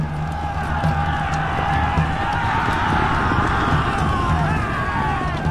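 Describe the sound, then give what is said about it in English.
Horses of armored knights charging at a joust: rapid, muffled thudding hoofbeats churn beneath a cheering, clamoring crowd, with the whole scene staying loud and continuous throughout. “They fight as if the battle were real. 50 men in armor riding at each other, clashing furiously.”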